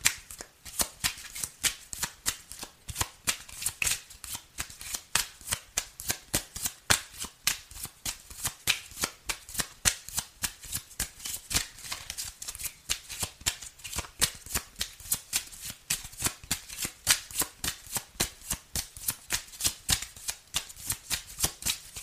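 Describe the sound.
Tarot cards being shuffled: a dense, continuous run of quick papery flicks and soft slaps that keeps an even rhythm and steady loudness throughout, with no talk.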